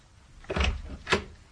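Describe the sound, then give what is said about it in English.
The front door of a flat is unlocked with a latchkey and swung open, making two soft, muffled bursts of rattling, sweeping noise with a pause between them. “But as I latchkeyed self and despondency through the front door...”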